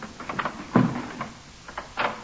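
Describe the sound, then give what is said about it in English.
A locked office door forced open with kicks from police boots: a few dull thumps, the strongest early on, over a faint, muffled background. “Then I'll open it. Stand clear. Some use for regulation police boots after all.”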